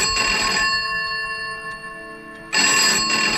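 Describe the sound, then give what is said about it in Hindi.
A telephone rings in a room with bright, electronic ringing. One burst of ringing stops, a quieter ringing tone carries through the pause, and a second loud burst follows. “और तभी कमरे का phone बजा,”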